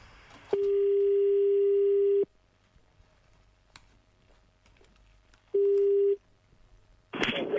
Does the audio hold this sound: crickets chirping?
no